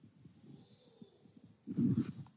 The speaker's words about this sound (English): Now, I have duct tape on this iPad cover. This is duct tape. It is tucked properly right here. But now if I take it, this tape off,